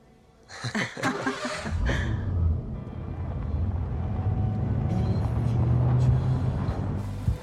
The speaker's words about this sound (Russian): Машина приехала во двор.